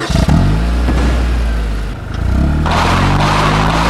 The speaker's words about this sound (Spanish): No, quédese tranquilo, es el motor.